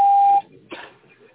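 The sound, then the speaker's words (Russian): A voicemail beep follows a recorded phone announcement: one loud, steady mid-pitched tone lasting under half a second, then faint noise and a soft breathy sound. “Вы можете оставить для него голосовое сообщение после сигнала.”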